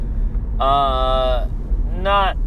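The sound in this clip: Steady low road rumble from a car being driven, a constant deep drone running beneath a man talking throughout.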